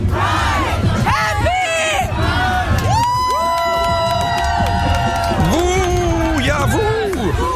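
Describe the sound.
Crowd cheering around the 1LIVE truck at a CSD Pride parade, with loud, continuous shouting, many high whoops and sliding yells, and excited voices layered throughout.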